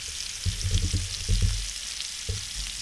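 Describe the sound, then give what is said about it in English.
Fresh bacon fries on a griddle with a steady, crackling sizzle, heard alone, broken by a few dull low knocks. “Fresh set of bacon on the griddle.”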